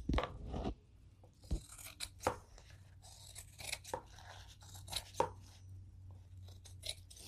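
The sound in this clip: Scissors cut through paper, trimming it to the shape of a journal. A series of crisp, uneven snips stands out over a low steady hum.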